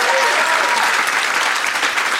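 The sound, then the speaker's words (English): Loud, dense applause from a crowd at a live show in Austin, a continuous wash of clapping that stays at a steady level from start to finish. “applaud if you did not attend Fantastic Fest, but you're here for this. Yay!”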